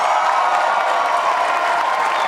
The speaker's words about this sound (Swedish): Vänsterpartiets Nooshi Dadgostar möttes av vrålande jubel i sitt tal efter ett halvdåligt rim.